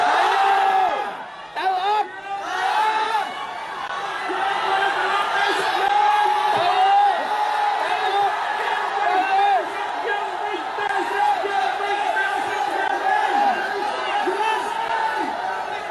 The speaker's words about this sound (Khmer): សំណើរបស់លោកត្រូវបានក្រុមអ្នកចូលរួមស្រែកគាំទ្រថានឹងចូលរួមក្នុងដំណើរវិលវិញ